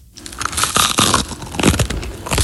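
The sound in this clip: Someone eats something crunchy for breakfast, with loud, crisp crunches in quick, irregular succession and no voices.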